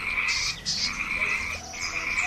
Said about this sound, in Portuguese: Por sua vez, a rã coaxava e lamentava-se.